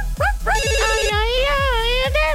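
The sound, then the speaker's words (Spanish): Phone ringtone for an incoming call: a loud, melodic wavering tone over a steady pattern of repeated low thumping beats, heard alone. “Tengo llamada.”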